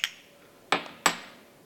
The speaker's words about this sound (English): So let's just dive straight into the espresso first of all. A little bit of a stir, as we always recommend now.